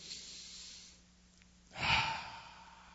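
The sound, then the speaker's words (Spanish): Deep breathing, a single long, breathy exhale like a sigh, fairly faint and heard alone after a quieter stretch. “Oigan, qué rico es respirar profundo, ¿verdad?”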